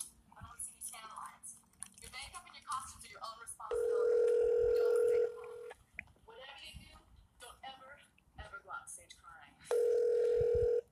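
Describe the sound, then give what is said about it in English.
Telephone ringback tone as a call is placed back to a friend and rings through toward voicemail: two long, steady electronic tones separated by stretches of a man talking and mouth noises. “So we're gonna call him back real quick.”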